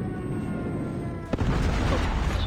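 Enemy airstrike explosions in a first-person shooter video game: a low rumbling bed is broken by a sharp blast, followed by heavier, sustained booming rumble.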